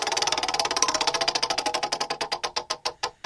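A prize wheel spun on a radio show ticks rapidly, its regular clicks gradually spacing out as the wheel slows toward a stop.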